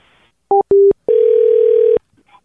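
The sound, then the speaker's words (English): Telephone tones as a call back is placed: two short electronic beeps, then a long steady tone that cuts off abruptly. “we're gonna try and call this guy back”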